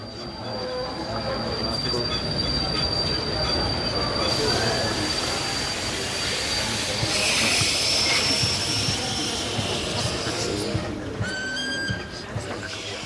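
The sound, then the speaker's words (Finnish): A train with a third-class carriage pulls into a railway station in Prague, its wheels squealing in long, high, piercing screeches over a dense rolling rumble that stays loud for the whole stretch. “kun Jaako vuosia myöhemmin astui ulos kolmannen luokan vaunusta Prahan uudella rautatieasemalla.”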